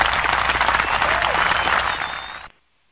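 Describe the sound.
Audience applause welcoming the host of a religious talk show: a steady, dense wash of clapping for about two and a half seconds that cuts off abruptly into silence.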